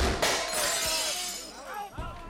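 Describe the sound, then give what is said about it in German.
Windows shattering throughout a house: a loud, sudden crash of breaking glass followed by bright, tinkling fragments, all within about two seconds. “Im ganzen Haus fliegen die Fenster ein.”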